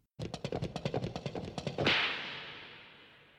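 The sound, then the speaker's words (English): Filmation cartoon studio logo sound effect from the 1980s: a rapid run of many sharp, whip-like cracks in a steady rhythm, ending in a loud, bright burst that rings out and slowly fades. “they shot the logo and the sound effect that went with the Filmation logo that we'd put in right here.”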